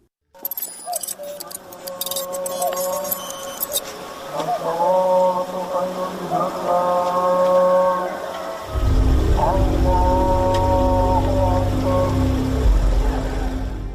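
Motorcycle engine breaking the dawn quiet in Samarkandek village in Batken, a low steady rumble that enters abruptly partway through and holds under sustained higher tones.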